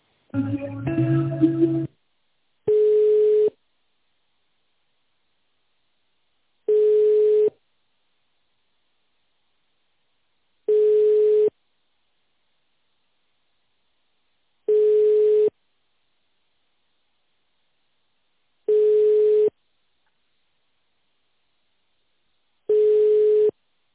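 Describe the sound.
A telephone ringback tone plays while a call is being transferred. After a short burst of other sound at the start, six identical mid-pitched beeps follow, each about a second long and separated by even, silent gaps.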